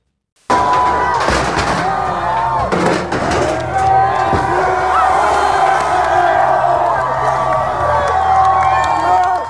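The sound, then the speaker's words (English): Anti-racism protesters in Bristol cheer loudly as they pull down a bronze statue of a 17th-century slave trader. Dense, sustained crowd roar with shouts and whoops runs unbroken from a sudden start to the end. “Anti-racism protesters in the British city of Bristol cheered as they toppled the bronze statue of 17th century slave trader Edward Colston and dumped it into the River Avon.”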